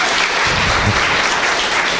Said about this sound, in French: Quelle joie, on l'applaudit.